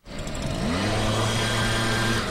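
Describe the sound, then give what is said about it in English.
Steady engine roar of leaf blowers worked by city crew members pushing plastic bags, candy wrappers and other litter down a narrow block in North Philadelphia, a continuous droning whine holding level throughout with no talk. “a pair of city workers use leaf blowers to shepherd plastic bags, candy wrappers, and other trash down a narrow block in North Philly.”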